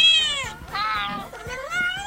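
A cat meows from a phone app, giving a few drawn-out, tonal meows one after another. Each call is clear and bright, with short breaks between them.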